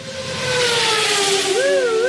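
A sound effect of a vehicle racing through town: a steady engine-like drone over a wash of hiss, its tone sliding slowly lower, then wavering up and down near the end.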